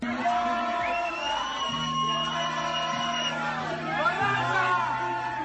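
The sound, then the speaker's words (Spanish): Party crowd chatter in a bar on a weekend: many overlapping voices with occasional shouts, fairly faint and continuous. “Bueno, este es el sonido de un vídeo que pueden ver en OK Diario, donde se ve a la alcaldesa de Barcelona de fiesta en un bar en pleno fin de semana,”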